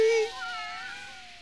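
A cat meows once, heard alone. The clear, tonal cry starts bright and slides slightly downward in pitch as it slowly fades.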